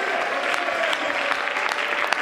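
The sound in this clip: A church audience claps hands, a loud, continuous and dense round of applause with scattered sharper individual claps standing out through the steady roar.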